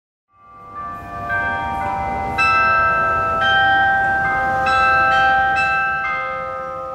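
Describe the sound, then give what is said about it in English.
Church bells ring out the hymn Amazing Grace at an AME church in Charleston, South Carolina: a series of clear, ringing bell strikes with long overlapping tones that sustain steadily throughout. “What you're hearing is Amazing Grace, played on the bells of the Mother Emanuel AME Church in Charleston, South Carolina.”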